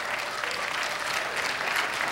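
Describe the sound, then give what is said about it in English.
A church audience applauds the Lord during a sermon, many hands clapping in a steady, even wash of moderate loudness that holds for the whole moment. “Oh, go ahead and applaud the Lord.”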